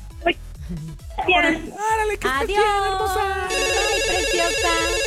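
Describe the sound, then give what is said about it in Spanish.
Telephones ringing with incoming calls during a ticket giveaway: a steady, repeating electronic ring that comes in partway through, mixed with music and lively voices talking over it. “Que bueno, pues voy a contestar las 7 llamadas.”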